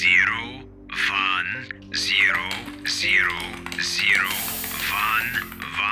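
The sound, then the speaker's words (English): Computer keyboard typing, with soft clicking keystrokes entering binary digits into a computer game. The keystrokes come mostly under a voice that speaks throughout. “So you type”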